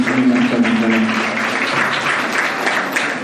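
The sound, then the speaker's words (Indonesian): An audience applauds at an Islamic study gathering: steady, loud clapping from many hands that stays fairly even and eases slightly toward the end, with no speech. “Baik kita berikan aplaus untuk beliau”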